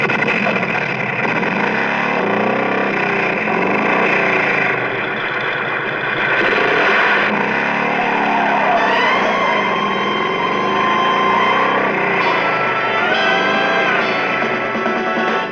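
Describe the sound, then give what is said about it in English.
A motorcycle engine in a film scene, with a rider mounting the bike beside a grassy field: a loud, sustained engine roar with revving swings in pitch that continue throughout. “we see a close-up of a motorcycle, and we see the leg of the person getting onto it. It starts quiet, and then...”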